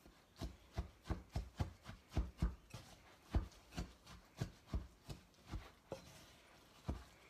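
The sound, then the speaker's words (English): Oats and banana are mixed and mashed together in a bowl for muffins, making many soft, evenly spaced thumps that slow toward the end. “what I like to do is just mix it all together to really get those oats and that banana mixed up”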